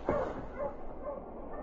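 A Malamute sled dog barks three times at an even pace, each bark short and fairly faint over a steady background hiss.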